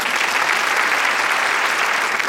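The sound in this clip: Applause from a studio audience at a televised talk show: dense, even clapping that holds at a steady, fairly loud level throughout, with no voices over it.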